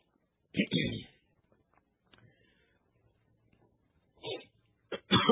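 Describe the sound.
Coughing and throat clearing from a tickle in the throat: three harsh, noisy bursts, a longer one first, then after a quiet pause two shorter ones close together.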